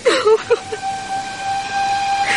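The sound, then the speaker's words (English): A train with a sustained, thin high tone running through steady background noise, after a few short, louder sounds at the very start. “Get on that train. Get our son and Teddy to safety and yourself,”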